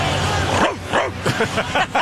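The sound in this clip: A person imitates a dog's bark at a baseball game with a quick series of several short, yelping barks, voiced over a steady crowd hubbub.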